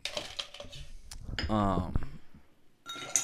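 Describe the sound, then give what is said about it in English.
Drinks being poured into glasses during drink mixing: a short gurgling pour of liquid with light clinks of glassware and scattered knocks around it. “Yo, so why are we pouring these drinks?”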